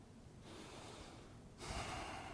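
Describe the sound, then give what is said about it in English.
A deep breath taken during a guided prayer: quiet, airy breath noise that starts softly, then grows noticeably louder and fuller toward the end. “Take a deep breath.”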